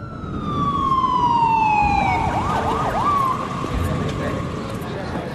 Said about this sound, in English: Emergency vehicles congregate.